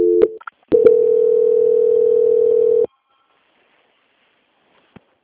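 A telephone tone plays while a bank call is transferred to quality control. A couple of short beeps lead into a loud, steady low tone lasting about two seconds, then silence with one faint click near the end.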